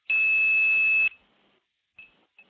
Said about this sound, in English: all around the country, all of the steppers are resetting and making a lot of noise, and all these links are getting torn down one by one when I hit the 2600